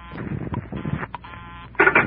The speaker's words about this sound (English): I held off dialing the last number on my phone until she got an answer. And then I let it go.